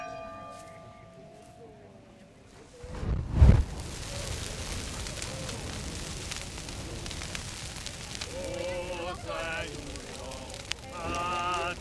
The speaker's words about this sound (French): Expliquez-nous, monsieur le curé, la Saint-Goustan, là on a vu un énorme feu.